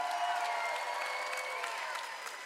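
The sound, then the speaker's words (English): A church audience applauds and cheers, producing faint, steady clapping with a crowd-noise wash that holds evenly for a couple of seconds. “If you love Jesus, can you make some noise for me?”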